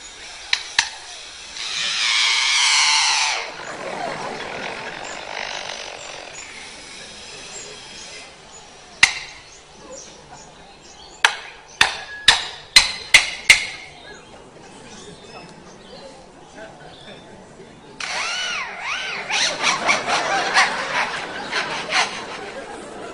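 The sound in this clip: A bird imitating noises from a nearby construction site gives bursts of harsh, buzzy chatter, a single sharp crack, and a quick run of several hard knocks. It ends with a long, rattling, scratchy passage.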